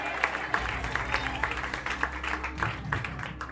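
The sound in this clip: An audience applauds a competing act at a talent show heat as the act goes through to the quarterfinals. Dense, steady clapping continues throughout at moderate volume.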